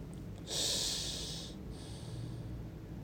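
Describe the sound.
One slow breath drawn in through a single nostril and then released through the other during alternate-nostril breathing meditation. The airy hiss is soft and quiet, with a brief pause between the inhale and the longer exhale and no talking.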